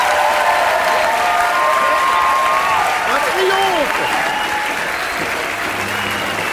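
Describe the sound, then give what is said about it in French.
Loud, sustained audience applause with a standing ovation, a dense wash of many hands clapping steadily throughout, with a brief tonal musical line rising and falling over it midway. “Un triomphe. Une standing ovation.”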